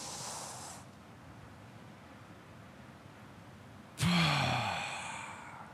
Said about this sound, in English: I want everybody to take a huge, big, deep breath in and hold it.